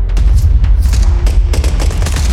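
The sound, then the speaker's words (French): Bursts of automatic weapon fire from Kalashnikov rifles as soldiers are attacked in a town: many loud, sharp cracks in rapid, irregular succession over a heavy low rumble, continuous throughout with no voices. “Les soldats sont attaqués des rafales d'armes automatiques.”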